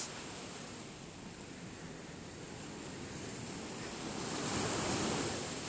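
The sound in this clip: Waves wash onto a damp beach near small grottoes: steady, broad surf with a rushing hiss, some wind noise, and the wash swelling louder toward the end.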